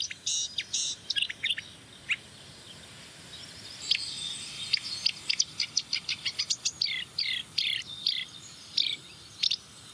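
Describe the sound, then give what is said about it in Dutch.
Birds call: a house martin, a blackbird giving alarm calls, and a robin. Many short, high chirps and sharp ticking notes come in irregular bursts over a faint, steady background. “Huiszwaluw. Merelalarm. Roborstepuit, roepje. Alarm.”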